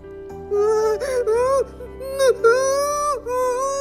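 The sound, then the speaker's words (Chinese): A voice imitates a tree character bursting into tears: a wavering, whimpering wail in several sobbing phrases that rise and dip in pitch, fairly loud, with a low steady hum beneath. “大树又先哭了出来。”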